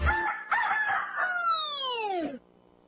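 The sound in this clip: A rooster crows once. The call is loud and drawn out, with a choppy start and a long falling tail that cuts off sharply, and it is heard alone with no voices.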